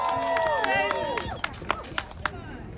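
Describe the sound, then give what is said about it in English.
A crowd at an anti-NATO rally shouts and cheers, with raised voices at first, then a few scattered, distinct claps ring out as the noise thins. “Make some noise for Miss Lucy Murphy.”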